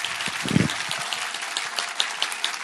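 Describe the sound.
Dense, steady applause from an audience at a religious gathering devoted to Imam Hussein, with many overlapping claps forming a continuous loud wash with no voices.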